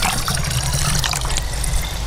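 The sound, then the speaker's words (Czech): Lake water splashes and trickles steadily as samples are drawn with a sampling pole from a metal structure away from the shore. The wash of water is loud and continuous, with no pauses. “zrovna odebírá vzorky vody. Došli jsme trochu dál od břehu po kovové konstrukci.”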